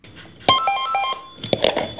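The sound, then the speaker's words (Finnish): A telephone rings at a telephone museum in Helsinki, answering a call placed from London; a bright, bell-like ring with steady high tones sounds clearly after a brief quiet start. “Elisan toimitusjohtaja Topi Manner nosti luurin Lontoossa ja soitti Helsingin puhelinmuseoon, jossa puheluun vastasi liikenne- ja viestintävirasto Traficomin pääjohtaja Jarkko Saarimäki.”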